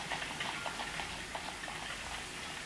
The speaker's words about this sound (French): La calèche doit être arrivée au théâtre.